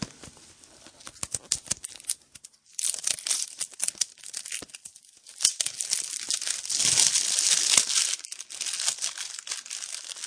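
Stiff laminate packaging snipped open with scissors and then torn apart, making dense, continuous crinkling and crackling with sharp tearing bursts and a brief lull partway through.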